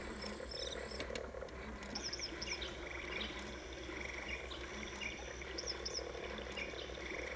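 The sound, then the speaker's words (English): A toy's sound button plays recorded crickets, a faint, steady chorus of chirping with a few sharper high chirps breaking through now and then. “There's the crickets.”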